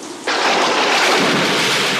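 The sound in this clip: A thunderstorm sound effect: after a brief quiet moment, a dense, loud roar of rain and rumbling thunder breaks in suddenly and keeps going at an even level to the end.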